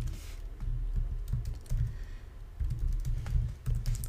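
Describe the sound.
Typing on a computer keyboard while entering code, with rapid, uneven clattering keystrokes in irregular bursts that run through the whole stretch, over a low rumbling background.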